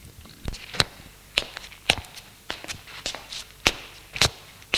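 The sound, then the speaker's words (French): Footsteps of a woman walking: many sharp, crisp taps at an uneven pace, some louder than others, over a quiet background. “Marie, tout en continuant à marcher, hausse ses épaules et dit”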